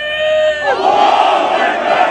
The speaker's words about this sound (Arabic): هنا اصطفت الحناجر لأجل القدس، هتافات ولافتات تطالب بالانتصار لأهل الشيخ جراح وتنادي بضرورة وقف جرائم المحتل وملاحقته، أصوات هتفت